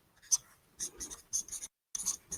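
Handwriting with a pen, as a handheld scanner is added to a written device list: faint, scratchy strokes come in short bursts separated by brief gaps, including one clear pause.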